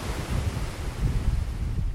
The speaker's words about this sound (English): there is a raging torrent flowing over the edge. And if I turn round, have my back to the weir, there are some serious white water rapids heading downstream.